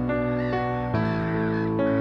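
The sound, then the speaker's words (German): Gulls cry as they wheel in flight among clouds above a beach with surf; a few drawn-out, harmonic calls overlap in a continuous, fairly loud chorus. “Am Himmel jagen leichte weiße Wolken dahin und in ihnen tummeln sich schreiend einige Möwen in elegantem Flug.”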